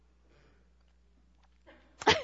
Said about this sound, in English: That was really a sneeze. She wasn't laughing at that. It just was a sneeze at the wrong time, at the right time.